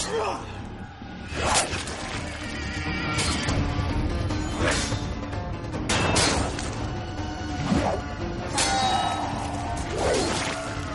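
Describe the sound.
Swords and shields clash in a Spartan battle in a 2006 war film, with several sharp metallic impacts and swishing strokes cutting through a dense, continuous roar of combat.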